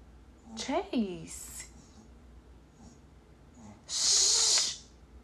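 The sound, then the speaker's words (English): A dog snoring loudly, with short snorting breaths and then a long, loud hissing exhale, all over a low background hum. “That's my dog snoring.”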